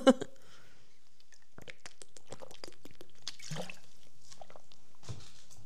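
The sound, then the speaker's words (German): A sip of a drink: a brief knock at the start, then a run of soft wet mouth clicks and swallowing noises, faint throughout. “Ach, Entschuldigung, ich muss immer einen Schluck trinken.”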